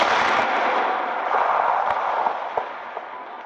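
Artillery gunfire, created as a radio drama effect, rolls out as a heavy, sustained roar that slowly fades. A few sharp cracks punch through the rumble near the end.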